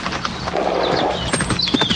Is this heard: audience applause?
no